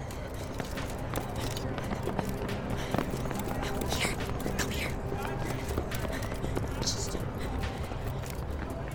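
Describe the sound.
Hurried running footsteps of people fleeing pursuers, a dense, steady patter that stays even and fairly loud throughout, with vocal sounds mixed in over the steps.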